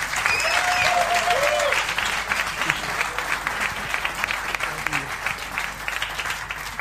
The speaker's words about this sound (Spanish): Agustín Zamora, dale un aplauso de ánimo.